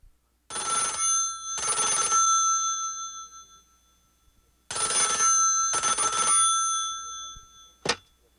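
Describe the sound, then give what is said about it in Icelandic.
A telephone bell rings in two double bursts of harsh, metallic ringing separated by a pause, ending with a short, sharp click. “Ég hringi frá Morgunblaðinu.”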